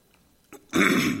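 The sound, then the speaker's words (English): A throat clearing: a brief faint catch, then a loud, rough, gravelly burst that runs to the end. No one speaks. “Sorry, I got a frog in my throat there.”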